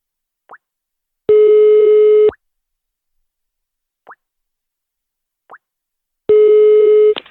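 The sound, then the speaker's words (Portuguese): Ringing tone of an outgoing telephone call, a steady mid-pitched buzzing tone sounding twice for about a second each with long silence between, plus a few short faint clicks. “Eu vou ligar pra Ildes!”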